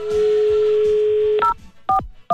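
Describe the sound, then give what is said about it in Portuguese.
A telephone number is dialed: a steady held tone gives way to three short, bright touch-tone beeps in quick succession, loud with no voices. “Eu vou ligar, hein?”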